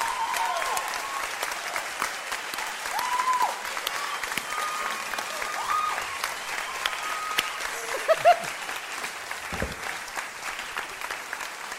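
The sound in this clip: An audience at a live show applauds to welcome a performer to the stage: dense, sustained clapping with a few whoops mixed in, steady and fairly loud throughout.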